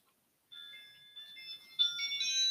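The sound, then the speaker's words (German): Electronic phone ringtone from an incoming call. It begins about half a second in as steady, melodic, high-pitched tones that repeat and shift in pattern, with no talk over them. “Okay, er wird gerade angerufen.”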